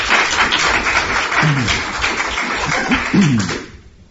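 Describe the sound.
An audience applauds to welcome a guest speaker at a talk. The clapping is dense and steady, with a few sharper claps standing out, and it dies away quickly near the end.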